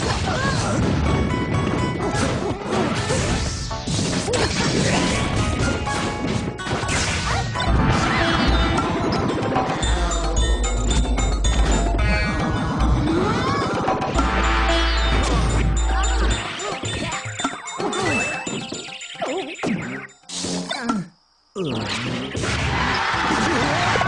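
Fighting sounds from the video game Super Smash Bros. Brawl: dense, loud hits, smashes and crashes pile up without pause over busy game audio, dropping out only briefly near the end.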